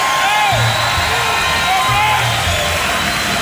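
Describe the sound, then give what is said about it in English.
An audience cheers and whoops at a live show after being called on to applaud, a loud, continuous wash of crowd noise with shouting voices throughout. “Come on, give Wayne a big round of applause.”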